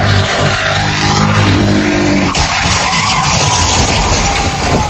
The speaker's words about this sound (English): Video shows a horrific crash as the suspect rammed two cars and flipped one of them, injuring an officer.